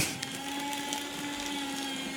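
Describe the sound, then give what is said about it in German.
A paper shredder runs with a steady motorized whine and a rough mechanical hum. Its high, even tones hold without pause, and no voices are heard over it. “Das beste Gerät für den Podcast. Einfach ein Aktenvernichter.”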